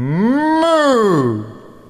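A dairy cow lets out a single long moo, a drawn-out tonal call that climbs, peaks and then slides down before trailing off into quiet.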